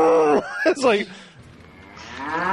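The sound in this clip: A person's voice imitates an angry cow mooing, giving a loud, low, throaty moo that breaks briefly and then trails off into a quieter, drawn-out lowing tone.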